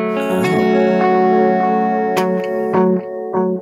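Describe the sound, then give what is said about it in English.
Electric guitar through a stereo delay pedal with the variation control turned up, layering a second delay over the first; sustained chords ring with echoing repeats after a few plucked attacks. “So as I turn up the variation, it starts to add like another delay.”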